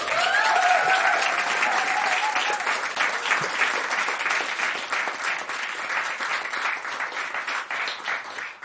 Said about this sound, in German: War gut mit dem Applaus, oder?